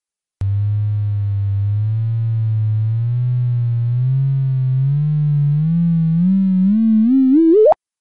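A simulated gravitational-wave chirp from two spinning neutron stars spiralling together, rendered as a low buzzing tone that slowly climbs with a wavering wobble, then sweeps sharply upward and cuts off abruptly.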